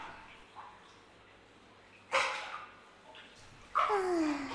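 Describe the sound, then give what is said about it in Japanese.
Water sloshing and splashing as someone settles into a bathtub of warm water, with two short bursts of movement, the second longer than the first. The splashes rise from a faint, quiet background. “湯船だ。あったまる。あったかいお湯、気持ちいいな。”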